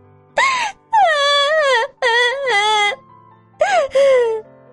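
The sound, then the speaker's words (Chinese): A little girl wailing to her mother. She gives four drawn-out, high, moaning cries with a wavering pitch, separated by short pauses. “妮妮见到妈妈，终于把满腹的委屈哭了出来。”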